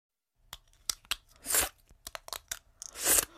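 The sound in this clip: Crunchy plastic crackles and snaps as a plastic Invisalign dental aligner is pulled out of the mouth. A series of short, sharp clicks is broken by two longer, hissing crunch bursts. No one speaks.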